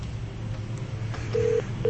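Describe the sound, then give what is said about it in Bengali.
Telephone dialing tones as a long-distance call from America connects: two short, steady electronic beeps near the end over a low background hum. “Long distance কলের জন্য wait করতেছি, America থেকে একজন phone দিচ্ছেন”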